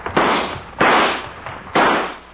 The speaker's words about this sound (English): when that lamp broke, it set fire to this place.